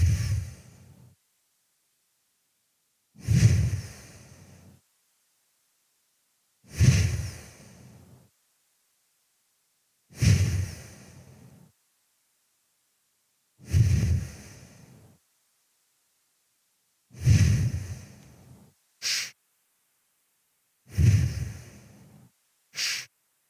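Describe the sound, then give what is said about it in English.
Slow, deep breathing during a guided breathing exercise: seven long, soft exhales evenly spaced about three and a half seconds apart, each fading out, with two brief extra puffs near the end and silence between breaths. “Exhale to let go, to thank. So inhaling, exhale.”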